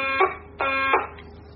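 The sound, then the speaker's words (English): Two short, harsh electronic buzzer tones sound one after the other with a brief gap between them, fairly faint and flat in pitch. “She talks through the mic. I talk through the buzzer.”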